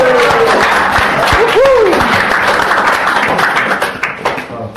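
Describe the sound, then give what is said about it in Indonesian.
Students in an English class applaud a classmate with dense, continuous clapping that stays loud and steady, then thins into more separate claps near the end. “Give him a applause.”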